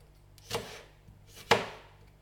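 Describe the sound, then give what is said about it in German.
A knife dicing bell pepper: two crisp, distinct chops about a second apart, fairly faint and with no other sound. “Auch die Paprika in kleine Würfel bitte.”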